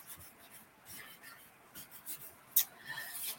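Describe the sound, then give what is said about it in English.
A pen writing a name on paper gives faint, scratchy strokes in short bursts, with one sharper scratch near the end and no voices. “I feel like I have to write the whole name tonight.”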